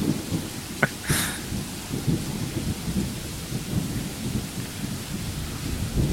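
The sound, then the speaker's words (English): Steady rain mixes with low, rolling thunder in a video game. A constant hiss of falling water sits over a deep rumble, with a couple of brief, sharp ticks near the start and no voices. “I can just stand in the rain afterwards. Stare emotionlessly at the rain.”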